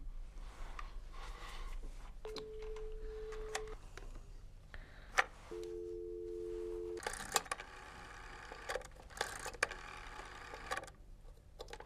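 An unanswered call on a telephone line gives two long, steady ringing tones of about a second and a half each, separated by a pause. They sit over a faint background hiss, and scattered clattering noise follows.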